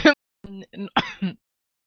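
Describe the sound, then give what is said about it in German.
A single short, harsh cough bursts out at the start, then a few brief, low voiced murmurs follow. “Entschuldigung, Huster.”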